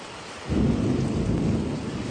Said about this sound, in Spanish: Está buena la lluvia, paisano. Está precio la lluvia. Mucho viento,